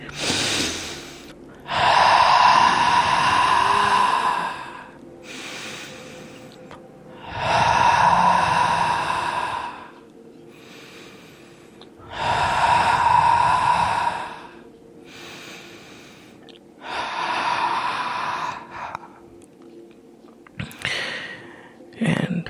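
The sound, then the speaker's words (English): Slow, deep breaths in a guided relaxation exercise, with loud airy inhales alternating with softer exhales in a steady, unhurried rhythm over several breath cycles. “Now, as you take your time, I want you to take a few breaths with me.”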